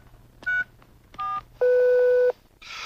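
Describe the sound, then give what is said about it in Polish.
Telephone number dialed on a keypad: three clear electronic tones, the first two short and the third held longer, each sounding alone over a quiet background. “Dobra, dzwonię.”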